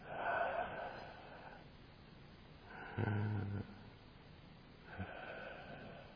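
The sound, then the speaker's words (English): Deliberately audible breathing in and out, heard as a few slow, soft breathy rushes of air with gentle swells and quiet gaps between breaths. “Of course, I'm forcing that, you don't make any sound. It happens naturally, but this is the breath as it comes in and goes.”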